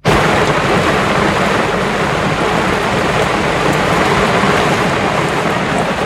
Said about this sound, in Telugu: బాగా వర్షం పడుతుందర్రా, రెయిన్ కోట్లు వేసుకోండి.